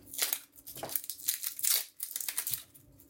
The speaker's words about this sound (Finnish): Sitten seuraavaksi kuoritaan sipulit. Elikkä ensin molemmat päät pois ja sitten poistetaan kuori.